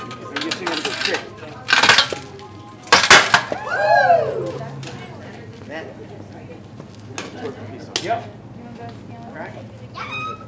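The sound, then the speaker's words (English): A geode being cracked open at a mineral, gem and jewelry show gives a couple of sharp, bright cracking clinks, with a squeaky sweep and voices in the background. “When my family got there, the first thing we did was crack open a geo.”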